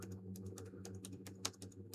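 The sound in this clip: Rapid typing on a computer keyboard, with many light, quick keystrokes clicking in an uneven rhythm over a faint low hum and no voices.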